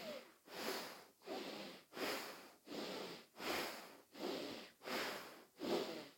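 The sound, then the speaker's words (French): Forceful, noisy nasal breathing in bhastrika style, pumped like a bellows: a steady train of sharp, hissing breaths through the nose, evenly spaced and of equal strength, with no talking. “vous allez expirer et inspirer bruyamment avec le nez et énergiquement.”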